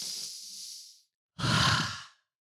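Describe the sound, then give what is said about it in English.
A deep breath in, heard as two long, airy breaths separated by a short pause. The second breath is fuller and louder, with no talk over it. “Just breathe in.”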